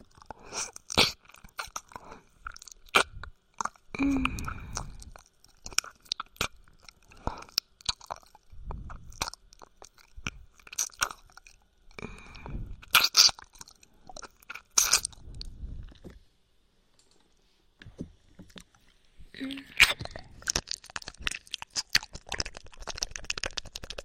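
Crunchy chewing and biting in a long, irregular run of many sharp crisp crunches, mostly close together, with a near-silent pause in the second half before the crunching resumes. No voices.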